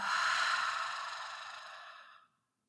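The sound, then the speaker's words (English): A deep, airy breath in a breathing exercise, a single long breathy rush that starts loud and slowly fades before stopping abruptly, with no talking. “Inhaling deeply through your nose. Exhaling, letting it go.”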